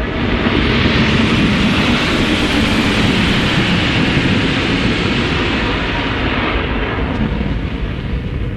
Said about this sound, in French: Atterrissage réussi. Nous sommes enfin arrivés sur Mars.